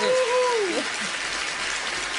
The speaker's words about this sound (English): Those are all the other people. That's our live studio audience.